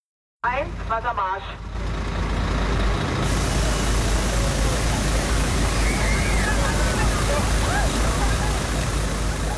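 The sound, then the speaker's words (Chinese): Loud, steady rushing hiss of a police high-pressure water cannon spraying water on a crowd in Berlin during a heat wave. The spray runs continuously throughout, with brief voices near the start. “警方出动高压水炮向聚集人群喷水，帮助民众缓解酷暑带来的高温。”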